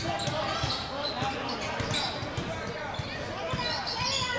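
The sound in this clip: A basketball is dribbled on a court during a game. Repeated bounces thud under a commentator's voice and constant crowd noise.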